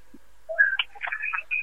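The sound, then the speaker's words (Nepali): Electronic telephone tones sound as a caller's line is cut off during a radio phone-in: a short, uneven run of beeps at several pitches, with no other sound around them. “ल, उहाँको पनि phone काटियो, मैले काटेँ होइन है, तपाईँले आफै थिच्नुभयो”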